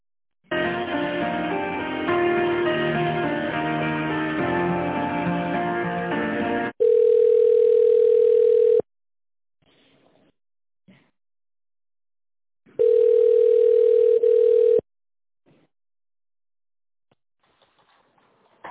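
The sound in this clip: A telephone line plays tones while a call is transferred to a company's tender department. A stretch of tinny, band-limited tonal sound comes first. It is followed by two loud, steady beeps of about two seconds each, with near-silence and faint clicks between them.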